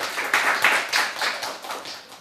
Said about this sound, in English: A warm applause.